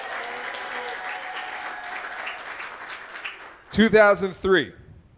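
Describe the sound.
A studio audience on a game show applauds and cheers as a contestant is introduced, a steady wash of clapping for several seconds before a loud voice cuts in over its fading tail.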